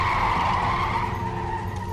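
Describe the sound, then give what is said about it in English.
Car tires screeching as a car brakes suddenly at a red light: one loud, sustained high squeal that fills the whole clip and eases slightly near the end. “hits a red light and stops suddenly.”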